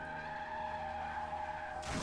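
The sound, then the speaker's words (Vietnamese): A car's tires screech in a long, sustained skid as the car races forward after its brakes fail. The loud, steady squeal lasts about two seconds and ends in a sudden harsh burst of noise. “xe của hắn hình như là bị mất phanh. Nó cứ như vậy lao thẳng về phía trước.”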